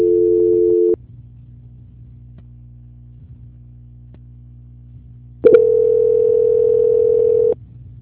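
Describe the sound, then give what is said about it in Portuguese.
Telephone line tones while a call is transferred: a steady tone lasting about a second, then a low hum for several seconds, then a second steady tone of about two seconds before the hum returns. “minutinho que eu estou transferindo a ligação. Sim. Transferência.”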